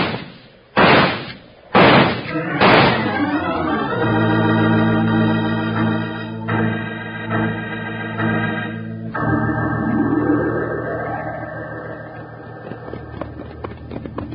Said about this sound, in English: I'm shooting down the first Moon Mountain man right now.